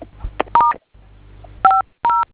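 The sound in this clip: Telephone keypad tones as star 500 is dialed: a few short, crisp dual-pitched beeps with brief pauses and faint background hum between them.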